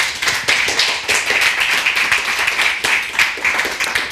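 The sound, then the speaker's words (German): An audience applauds warmly to welcome a speaker at a presentation. The clapping is dense, loud and continuous, with a lively patter of individual claps through the whole stretch and no talking over it. “bitte um einen herzlichen Willkommensapplaus für Bernd”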